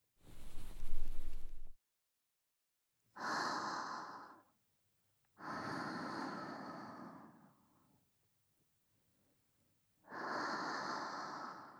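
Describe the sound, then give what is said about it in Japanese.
Slow, deep breathing, with four long breaths separated by silent pauses. The first breath is rougher and lower, and the later ones are airy, hissing exhales of moderate loudness, with no talk. “まずは天井の方を向いて深呼吸よ。”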